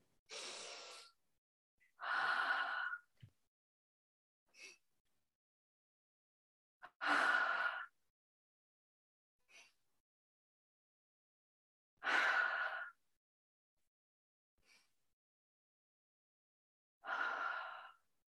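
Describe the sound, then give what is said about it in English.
Five slow, deep breaths, each a long, loud, sighing exhale separated by stretches of quiet. Fainter short breaths fall in some of the gaps, and no one speaks. “So we can actually do it right now if you want to. Yeah, let's do it. 5 deep breaths.”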